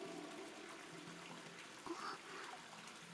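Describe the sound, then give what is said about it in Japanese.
Faint water trickling and dripping in a steamy cave hot spring: a soft, steady wash of water with one brief plop standing out in the middle. “洞窟の天井に湯気がたまって、ぽちゃんぽちゃんって立つ水音も気持ち落ち着けてくれるみたいで”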